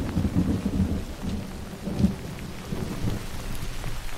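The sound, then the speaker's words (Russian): Steady rain falls outside a cave, a dense continuous hiss with a low rumbling underneath and a few slightly louder swells, no voices. “пережидает дождь, сидя в пещере. Из ее рта поднимается пар.”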